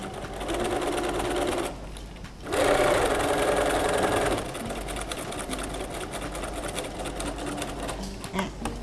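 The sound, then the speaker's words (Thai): A sewing machine stitches along the edge of a bag's opening at a 2.5 stitch length, giving a steady mechanical whir that stops briefly, then starts again and runs on without a break. “เราก็เริ่มเย็บเลย”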